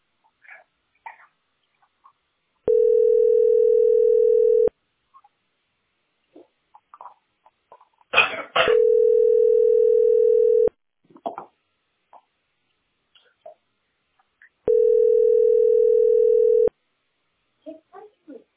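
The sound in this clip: A telephone tone sounds on the line three times, each a steady low hum of about two seconds separated by longer pauses. Faint clicks and brief voice fragments fall in the gaps.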